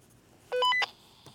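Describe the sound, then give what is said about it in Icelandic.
A code encoder beeps out a coded signal: a rapid run of several short electronic tones stepping upward in pitch, lasting under half a second, followed by a faint click. “Fyrst heyrum við í dullmálskóðaranum en hann er að senda okkur vísbendingu um leynistaf einhver staðar á Íslandi.”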